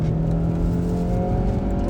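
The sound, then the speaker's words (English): A car engine purrs while driving, a low, steady hum with constant pitch and level throughout the short stretch, heard alone without talk. “engine purring. That's how you know we're really doing a cast in the car.”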